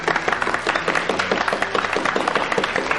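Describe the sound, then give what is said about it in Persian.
A group of students clapping in honor of a guest, loud and lively, with the claps falling into a quick, fairly regular rhythm that carries on steadily throughout. “بچه ها به افتخارش یه دست بزنیم”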